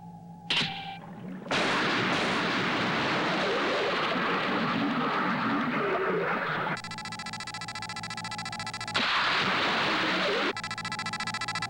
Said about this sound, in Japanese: よし、攻撃開始。 魚雷発射！ 発射！